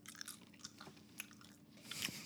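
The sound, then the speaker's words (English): Someone chews a blueberry, producing soft, faint wet bites and small crunchy mouth clicks scattered unevenly through a quiet moment. “Do you have a blueberry? Yes, I do. All right. Eat it.”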